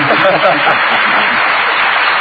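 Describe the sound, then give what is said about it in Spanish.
Applause from a studio audience welcoming a visiting youth group: a dense, even patter of many hands that fills the whole clip at steady loudness, with no clear pauses. “Bien, ¿qué le parece si los aplaudimos?”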